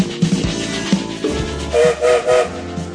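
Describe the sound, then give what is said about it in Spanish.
A train starting to move on a rainy night sounds three short, tonal whistle blasts in quick succession over a steady low rumble. “En esta lluviosa noche el tren se pone en movimiento.”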